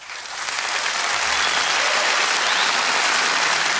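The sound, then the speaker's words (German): Studio applause closing a two-hour radio program, swelling quickly at the start and then holding as a loud, even, continuous wash of many hands clapping. “Ja, der Applaus ist hier natürlich eine Art Selbstbeweihräucherung.”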